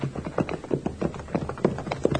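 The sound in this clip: Horses' hooves clip-clop as riders approach a house: many uneven hoof strikes, moderately loud, overlapping in a loose, continuous rhythm with no voices.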